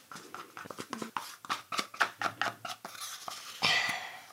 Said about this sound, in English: And we open the capsule carefully over the mousse, and then we mix it in.